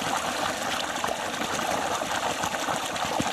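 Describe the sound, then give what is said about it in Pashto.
Water pumped up from a 300-metre-deep borehole for fields and orchards in a Kandahar farming district gushes steadily. It makes a loud, continuous rushing, splashing wash with no breaks. “کښتونو او باغونو لپاره دا اوبه له 300 متره ژورې برمې څخه راپورته کیږي.”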